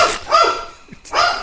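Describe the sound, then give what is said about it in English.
A puppy barking at home: a few loud, harsh barks, with a short pause before the last one. “You're going to hear a dog. I'm just going to tell you right now. Puppy. It's going to be happening.”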